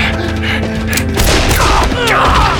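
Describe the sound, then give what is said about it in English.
Gunfire in a street shootout: a few loud, sharp bangs in quick succession over a low, rumbling bed, with no talk. “As McKenna went down, Duff saw two more men abandon their hiding places behind the corners of buildings. As they ran across the street, they started shooting toward Duff.”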